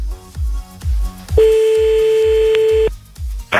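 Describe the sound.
A telephone call being dialed shows as a single loud, steady tone lasting about a second and a half. It sits over regular low thumping pulses, and no voices are heard.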